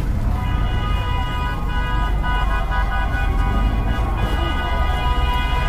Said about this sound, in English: People are honking as they go by.